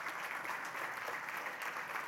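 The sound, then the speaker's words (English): Audience applause at a church welcomes a pastor to the stage, a steady, dense patter of clapping that carries on without pause across the whole stretch. “Would you get up on your feet? Would you make a ton of noise? And would you welcome to the stage Pastor John Hampton?”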